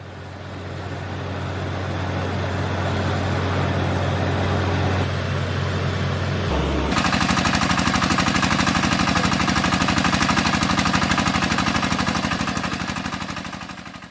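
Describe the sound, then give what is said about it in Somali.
A drilling rig bores a water well for a village, its engine making a loud, steady mechanical drone with rattling. Partway through, the sound shifts abruptly to a harsher, more pulsing tone. No voices. “Muuqaal ay baahisay Al-Kataib Al-Ikhbaariya ayaa muujinaya riiga oo ceelka qodaya, ugu dambeynna Allaah fadligiis biyo ka soo saaraya.”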